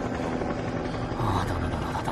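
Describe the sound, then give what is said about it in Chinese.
A helicopter flies overhead, a steady low droning rumble with a throbbing hum that holds at an even loudness throughout. “我们完蛋了，上面有直升机。”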